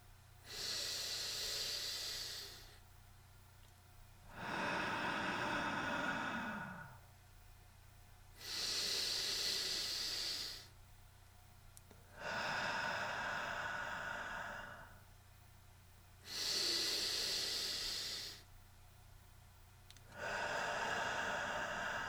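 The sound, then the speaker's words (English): Slow, paced breathing with six long breaths alternating in and out, each lasting about two seconds and separated by short quiet pauses, soft and even in rhythm. “3 seconds for the movement of the air in, and 3 seconds for the movement of the air out. You can, if you desire, breathe along with me.”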